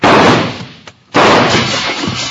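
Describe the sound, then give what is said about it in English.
Loud gunfire during a shootout on a town street, where a shot breaks a store window: two long, dense blasts of noise separated by a short silent gap near the middle. “who's doing that shooting? That came from this end of the street.”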